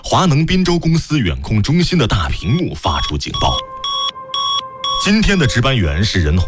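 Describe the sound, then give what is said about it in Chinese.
An alarm goes off from the big screen in a power plant's remote control centre: a series of high electronic beeps pulsing over a sustained tone, with people talking before and after. “华能滨州公司远控中心的大屏幕发出警报。”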